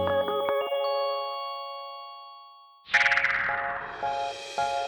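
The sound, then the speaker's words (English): Telephone busy signal, heard by callers while the line is tied up by a dial-up internet connection: a few short, evenly spaced tone pulses over a noisy burst, after a bright ringing chime at the start. “if people tried to call you on the phone while you were using it for the internet, they'd hear this. That sound means you're busy, and they won't be able to talk to you until you get off the internet.”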